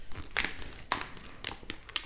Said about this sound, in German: Aber ich darf hier schon so reißen, ne? Das Papier kannst du aufreißen, ne?